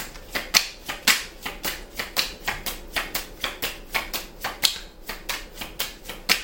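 Tarot cards are shuffled by hand in a long, steady run of many crisp slaps and flicks, each sharp and papery, with no talking.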